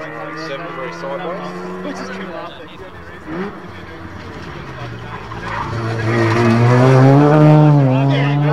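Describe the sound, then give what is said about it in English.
Rotary-engined RX4 race car downshifting through close-ratio gears, its buzzing engine note stepping through the revs and swelling much louder through the second half. “That RX4, it had really good, nice close gears, didn't it? Like you hear it come down.”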